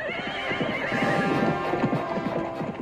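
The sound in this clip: Hooves of a horse pulling a cart clip-clop in a quick, steady rhythm while the horse neighs loudly over them.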